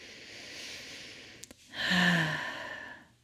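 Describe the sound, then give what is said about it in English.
A single deep breath taken during a calming grounding exercise. Two faint clicks come first, then a soft, airy rush that swells and slowly fades over about a second and a half. “take another deep breath now that you have your four things you can touch.”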